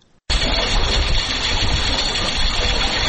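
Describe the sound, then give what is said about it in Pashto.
A drip irrigation system's pump runs as a loud, dense mechanical drone that cuts in abruptly after a brief quiet moment and holds steady to the end. “دغه غږ د اوبو څاڅکي سیستم دی چې د انرژي یا اوبو د ضایعاتو د مخنیوي لپاره یو مورژنه چاره بلل کیږي.”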